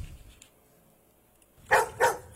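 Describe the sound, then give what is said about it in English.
A dog inside a radio studio lets out two sharp, loud barks in quick succession after a stretch of near silence. “There's Roxy the weather dog, supposed to be outside helping us with the weather report. I don't know how she got in here,”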